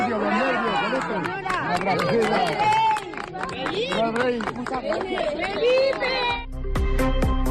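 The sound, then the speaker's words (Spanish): Residents of Almagro cheering King Felipe VI during his visit, a loud jumble of many overlapping raised voices and shouts with sharp clicks scattered through, ending in a low rumble. “Así han recibido hoy los vecinos y vecinas de Almagro al rey Felipe VI, con vítores, aplausos y carteles de bienvenida.”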